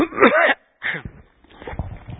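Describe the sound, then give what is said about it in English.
Throat clearing from a tickle in the throat: two or three short, rough bursts with a gap of silence between, followed by a softer, breathy rasp, fairly loud and alone. “Excuse me, I've got a tickle in my throat.”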